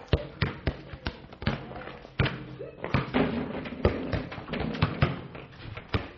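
A schoolboy dribbles a basketball on a hard court, with many loud, hollow bounces in a fairly steady rhythm and short pauses between runs of thumps.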